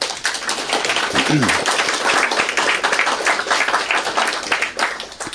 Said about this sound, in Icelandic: Viltu að klappa fyrir honum?